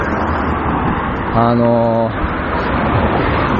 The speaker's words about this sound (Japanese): 道路に出たんで、車がもうビュンビュン通ってね、ちょっとうるさかったですけどもね